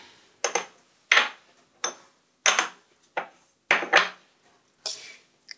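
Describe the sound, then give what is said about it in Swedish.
Paint squeezed from tubes and stirred together in a small porcelain cup, heard as a run of short, crisp scraping and clinking strokes against the porcelain, repeated in quick bursts with no voices. “Jag tar det färg från en tub här och klickar ut på liten porslinskopp. Ja. Blandar ihop lite.”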